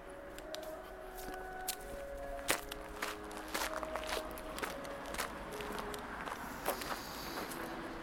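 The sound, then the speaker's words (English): Footsteps of a person walking back to a sign at the beginning of a park, a faint, steady series of soft scuffing steps continuing throughout with no voices. “So I walk back to the sign at the beginning of the park.”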